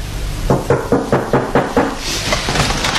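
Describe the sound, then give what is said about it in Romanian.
Loud, rapid knocking on a door: seven heavy, evenly spaced thuds, then a few softer blows trailing off. “Nu mai bate așa că spargi ușa.”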